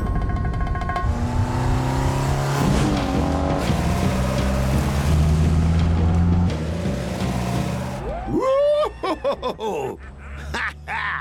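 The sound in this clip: The engine of a classic British Sunbeam Alpine sports car on a test drive gives a steady, loud, low drone for about eight seconds. Then come several sharp rising revs broken by brief dips.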